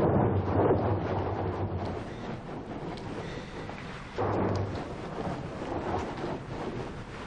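Rain falls as a soft, steady hiss with low rumbling swells, rising briefly in a louder surge partway through before settling again.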